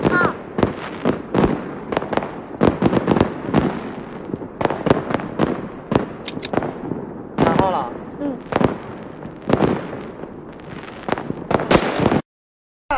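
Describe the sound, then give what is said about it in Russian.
Fireworks going off in a salute, many sharp bangs and crackling pops in rapid, irregular succession. Voices sound faintly beneath them before the noise cuts off into brief silence near the end. “Паршивый салют.”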